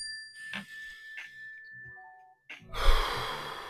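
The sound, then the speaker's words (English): A deep breath is drawn and released as a rough, breathy rush near the end. A few soft chime-like tones come before it, and no one speaks. “let's take a deep breath real quick just to stay in the moment.”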